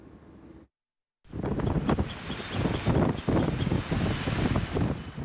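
Typhoon wind and crashing waves on the coast of China make a loud, continuous roar with surging gusts and heavy surf. A brief silent gap comes near the start, then the roar returns.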